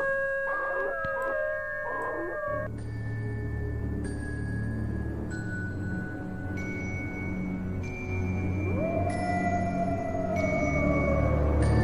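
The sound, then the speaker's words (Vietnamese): A man imitates a wolf's howl with wavering, sustained tones at the start, followed by long steady tones over a low droning background. “Thiên Phong ngửa mặt lên trời, chu lên một tiếng như loài chó sói vậy.”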